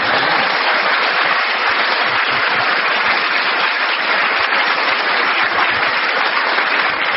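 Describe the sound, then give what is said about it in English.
Studio audience applause in a radio panel game, a loud, dense and unbroken roar of clapping hands that holds steady for several seconds with no talk. “A tremendous round of applause that Derek gets a bonus point at the end.”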